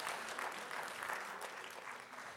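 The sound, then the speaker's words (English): Applause from an audience at a church service, a steady, faint patter of many hands clapping without a break for the whole span. “Ah, yeah, that's a good one. Go ahead and applaud that.”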